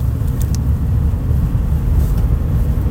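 Steady low drone of a car being driven with a noisy rear axle, a dense rumbling road-and-drivetrain hum that holds at an even, fairly loud level throughout, with no voices.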